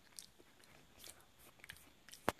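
A person eats while playing a Brawl Stars game, with soft, scattered crunchy bites and chewing that stay faint throughout, apart from one sharper crunch near the end.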